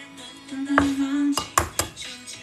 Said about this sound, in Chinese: 然后打个鸡蛋，打一个人一个鸡蛋应该够了吧？